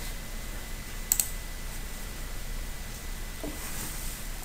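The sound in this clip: Two quick, sharp clicks close together while working in database software on a computer, faint over a steady low hiss, with the rest of the stretch quiet.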